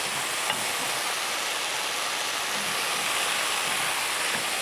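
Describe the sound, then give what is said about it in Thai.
Lotus root, potato and mala chili stir-fried in a wok give a steady, dense sizzle with a continuous hiss and faint stirring. The sound stays even and fairly quiet throughout. “ผัดแบบผักกรอบๆเนาะรากบัวก็กรอบๆมันฝรั่งก็กรอบๆเสร็จแล้วใส่พริกหม่าล่าที่เราผัดไว้เนี่ยลงไปเลย”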